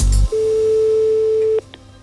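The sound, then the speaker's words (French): Telephone ringing tone while a call is being placed: one steady mid-pitched electronic tone lasting just over a second, clear and loud on its own, after a short burst of other sound at the start. “Actuellement, nous sommes en train d'appeler Monsieur Villadar, Jean, ainsi que Monsieur Villosset, Célestin”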